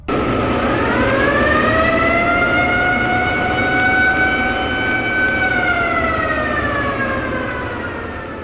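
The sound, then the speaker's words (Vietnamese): Air raid warning siren wailing across a mountain ravine, a loud sustained tone that climbs at the start, holds steady, then sags slightly in pitch and fades toward the end. “chợt nghe tiếng còi báo động máy bay tập kích ré lên khắp khe núi.”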